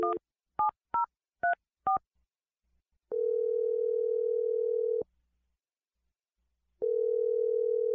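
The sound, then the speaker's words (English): Someone dials a telephone number: five quick keypad tones of varying pitch, then two long, steady ringing tones separated by a silent gap. No one speaks. “I'm just going to dial the number. Here we go.”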